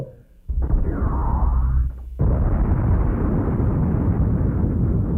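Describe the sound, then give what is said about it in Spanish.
A hyper-omega spacecraft thruster explodes: a sudden loud blast with a whooshing tone, then a second, heavier burst that settles into a sustained, rumbling roar. “Tengo buena puntería. El propulsor hiperomega explotará. ¡No! ¡Mi propulsor hiperomega no!”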